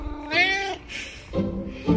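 A house cat meows insistently for its dinner, giving a few loud, drawn-out meows; the first is high and wavering, and the later ones are lower and rougher.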